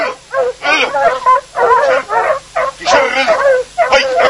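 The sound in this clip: Dogs bark loudly and repeatedly at a rural village, many sharp barks coming in quick succession with brief gaps between them.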